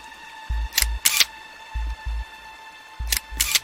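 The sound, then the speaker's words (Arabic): A camera takes photos, with three pairs of crisp double shutter clicks spaced about a second apart over a faint steady hum. “استنى احاول اصور على الاقل.”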